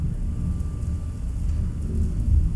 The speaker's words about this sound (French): L'orage éclate et nous trempe jusqu'aux os.